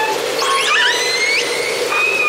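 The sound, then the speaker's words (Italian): Orca calls from a record: high whistling squeals and gliding tones that sweep up and down, repeated over a steady hiss. “Dischi con le orche a cantarsela.”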